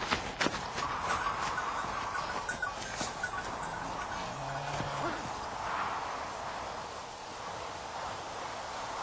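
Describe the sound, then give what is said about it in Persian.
A herd of animals driven on by herders, with a continuous mix of hooves clopping and rustling over a faint, steady, noisy background. “بسیار خوب، برویم. دان نفتالی گله را حرکت دهید.”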